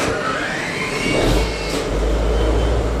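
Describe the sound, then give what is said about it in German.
A diesel engine on a 60-year-old Dutch-flagged cargo ship starts at the push of a button in the Mannheim-Rheinau harbour, a loud, steady low rumble swelling in partway through and holding to the end. “Im Hafen in Mannheim-Rheinau steige ich dazu, Leinen los und dann wird der Dieselmotor angeschmissen mit Knopfdruck.”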